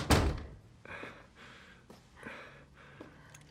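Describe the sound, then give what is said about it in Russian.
A photo frame striking a man's head in a film scene: one loud, sharp thunk at the start, followed by several faint, muffled knocks and scuffles. “Она бьет его фоторамкой по голове.”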